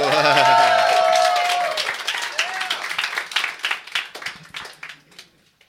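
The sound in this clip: An audience applauds a guest, with clapping and whooping cheers loud at first and then gradually thinning into scattered claps before dying out.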